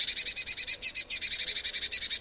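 High-pitched bird calls from a blue tit at a winter bird feeder: many rapid, evenly spaced chirping notes in a fast rhythmic trill, clear and fairly loud, with no other sounds.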